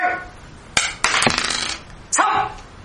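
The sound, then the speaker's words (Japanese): Dice being rolled: a few sharp clattering impacts, each followed by a brief rattling tail, standing out over a faint low background hum, with no talk. “サイコロタイムでございます。”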